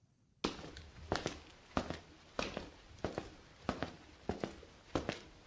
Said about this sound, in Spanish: Voy caminando directo al baño para lavarme los dientes.